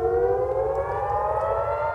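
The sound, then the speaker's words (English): Air raid sirens wail at night in northern Israel: a loud, steady chorus of layered siren tones holds without a break for the whole clip. “Sirens piercing the night with Israeli jets carrying out airstrikes against Hezbollah in Lebanon”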